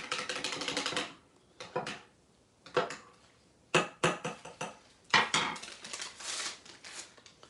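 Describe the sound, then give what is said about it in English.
A spoon clinks and scrapes against a mug while stirring hot cocoa. It comes as many irregular bursts of bright knocking, with a dense run at the start and short pauses between later bursts, and no talk. “let's stir it up. Here we go.”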